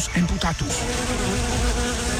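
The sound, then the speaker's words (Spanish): Bees buzz in a steady, continuous drone that holds an even, fairly loud level throughout, with no pause or break. “las abejas trabajadoras no se van a quedar quietas ante tanta preocupación, y mucho menos van a aceptar que se ataque a su abeja reina”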